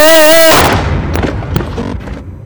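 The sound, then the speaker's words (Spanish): A single handgun shot fired by a hired gunman in a busy city street: a steady humming tone cuts off into one sharp, loud bang, followed by a decaying rumble with scattered crackles. “un pistolero a sueldo, saca un arma y le da un tiro en la cabeza”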